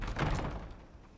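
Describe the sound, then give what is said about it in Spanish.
Heavy castle bedroom door being closed: a single dull, low thud near the start that fades out quickly, fairly quiet and heard on its own. “Ella cierra su puerta.”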